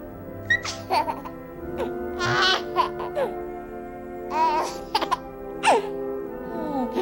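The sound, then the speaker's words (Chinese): A baby fusses and cries in a series of short, high, wavering wails and whimpers, separated by brief pauses. “好，乖乖啊，不哭不哭啊，啊，乖乖的哦。”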